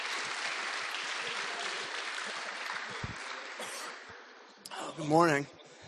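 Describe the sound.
Audience applause at a church service welcoming a guest, a steady wash of many clapping hands that fades after about four seconds, then a voice begins speaking.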